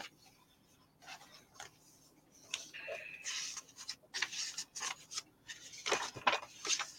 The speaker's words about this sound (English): We'll take a quote sticker. We'll put that right here.